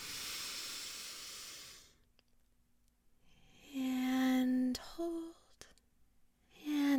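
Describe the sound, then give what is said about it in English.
A long, soft, airy inhale through the nose during a relaxation exercise fills the first two seconds as a steady hiss. Quiet follows, then brief low voiced tones. “And we're going to breathe in through our nose.”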